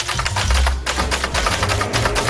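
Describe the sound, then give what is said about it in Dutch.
Typing on a row of orange typewriters set out in a library: many quick, sharp key clicks and clacks in an irregular rhythm over a low, steady hum. “in Zwolle een hele rits oranje typemachines neer, waar mensen hun frustratie van zich af kunnen typen”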